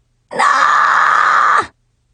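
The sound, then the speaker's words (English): A person lets out one loud, sustained scream that holds a steady pitch for more than a second and then cuts off abruptly. Silence comes before and after it. “That was me screaming. Sorry. Must stop screaming!”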